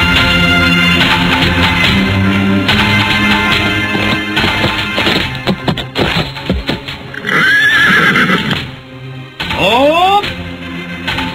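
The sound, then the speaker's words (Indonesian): Horses neigh loudly amid a busy background, with a couple of sharp, shrill whinnies rising and falling near the end. “Biar saya mengambil kuda-kuda itu.”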